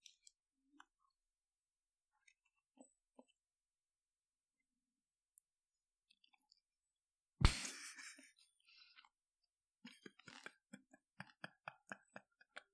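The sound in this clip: Chewing of a burger with bacon and fries: sparse faint clicks, then one loud crunchy burst that trails off, followed by a quick run of many small wet clicks and smacks.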